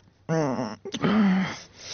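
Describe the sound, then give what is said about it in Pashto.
A man cries and moans in his sleep during a bad dream. Two drawn-out voiced wails are heard, the second rising louder before trailing off into breathy noise. “خوب کې دې ژړل؟”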